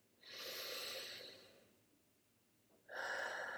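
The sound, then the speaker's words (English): A deep breath, heard as a soft, airy rush that swells and fades over more than a second, then a quiet lull before another strong breath begins. No speech. “Take another deep breath.”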